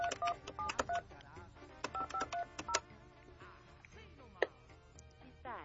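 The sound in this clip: Telephone keypad dialing tones from a call being placed: many short, bright beeps in quick clusters with brief pauses between groups, fairly faint and with no talking.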